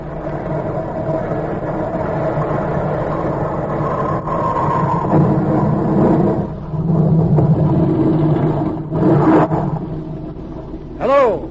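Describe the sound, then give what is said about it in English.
Boat motors drone in a steady low rumble as a craft comes alongside on the water. People talk over the engine noise. “Shut off your motors. I'm coming alongside. Shut off your motors.”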